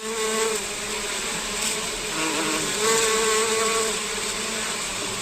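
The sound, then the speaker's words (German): Bees buzz densely around beehives holding up to 240,000 bees on a green space at the Maximilianeum, the Bavarian state parliament building. The loud, continuous hum swells slightly now and then and carries on alone without any voices. “Bis zu 240.000 Bienen tummeln sich in den Bienenstöcken auf einer Grünfläche des Maximilianeums.”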